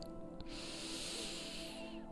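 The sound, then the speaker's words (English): A slow deep breath in, a faint, smooth airy hiss that swells in and holds for about a second and a half before tapering off, heard alone without talking. “One more time, let's do a deep breath in”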